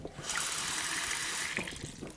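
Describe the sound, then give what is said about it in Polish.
Water pours and splashes steadily as hot water is tipped out and cold water is added to thin it, a continuous rushing flow lasting nearly two seconds with a slight break near the end. “Myślę, że musimy rozrzedzić tą wodę, czyli wylej do połowy. I jeszcze raz zimna woda.”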